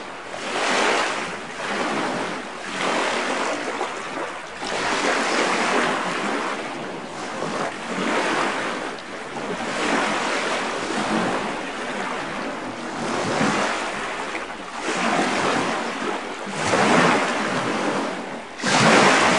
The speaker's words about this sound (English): Let's listen to Fresh Lake, recorded by our guest, Bernie Krause.